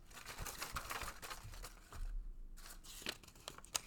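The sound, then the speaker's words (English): Paper slips rustle and crinkle as they are drawn out of a lucky Patriots hat: faint, irregular crackles and scratches with no talk. “I have a lucky Patriots hat. I'm going to draw out some papers and let you know what I think.”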